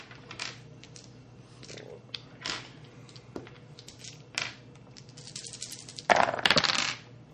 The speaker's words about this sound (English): I can't help but notice the floor is covered in quarters.